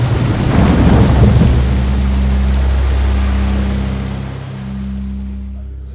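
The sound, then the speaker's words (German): A huge flood wave surges and lifts a boat in a loud, continuous roar of rushing water over deep rumbling undertones. The roar eases slightly toward the end. “Das Boot wurde von einer gewaltigen Flutwelle gehoben und...”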